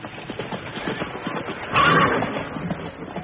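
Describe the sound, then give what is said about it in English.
Hoofbeats and a whinny from horses drawing the Pharaoh's golden chariot: a steady, dense clatter throughout, with a brighter neigh rising near the middle. “It is the golden chariot of His Majesty. It is the mighty Pharaoh.”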